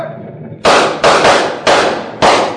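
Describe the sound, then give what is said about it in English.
Several loud, sharp gunshots are fired at a fleeing wagon, coming in quick, irregular succession with hard attacks and short decays and no talk between them. “You other men, fire at that wagon.”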